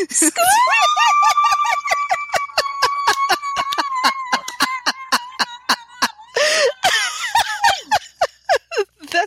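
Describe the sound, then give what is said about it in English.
A loud, high-pitched human squeal, held steady at one pitch for about four seconds, followed by several short breathy bursts of laughter and coughing. “That's like the biggest squeal you've ever done, and also the highest.”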